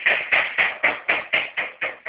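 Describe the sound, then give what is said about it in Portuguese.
Rhythmic knocking from a woodworking shop, heard over a phone line: a steady series of evenly spaced, sharp knocks, roughly four per second, with no voices. “Senhor Isaías, tem alguma coisa batendo aí, senhor Isaías? É a minha marcenaria.”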